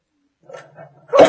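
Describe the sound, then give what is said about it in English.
A dog that helps a blind man lets out a few short yelps and barks, ending in one louder, sharper bark, with no voices. “This dog helps him.”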